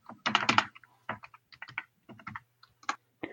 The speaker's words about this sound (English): Sorry, my computer just went blank. I have to type in my password.